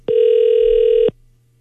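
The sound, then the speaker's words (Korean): Ringback tone of an outgoing telephone call: one steady, evenly pitched electronic beep lasting about a second, starting and stopping abruptly, followed by quiet. “자, 신호 갑니다. 자, 오늘 마지막 통화 될 것 같아요. 자, 신호 가고 있습니다.”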